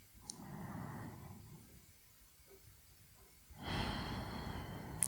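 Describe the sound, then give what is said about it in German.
A deep, conscious breath drawn into the belly, heard as soft airy breathing: a long, gentle breath, a pause, then a louder, fuller breath, with no talking. “Einfach mal durchatmen. Bewusst in den Bauch.”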